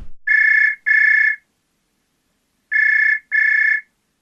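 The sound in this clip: A mobile phone's ringback tone sounds on an outgoing call: two pairs of steady, mid-pitched electronic tones, each pair a quick double pulse, separated by a long silent gap. The call goes unanswered.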